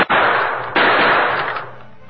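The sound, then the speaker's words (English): Handgun shots fired at a big, heavy iron door lock: two loud, sharp blasts in quick succession, each followed by a long, hissing decay that slowly fades. “The Lone Ranger drew one of his guns. Bullet may smash it.”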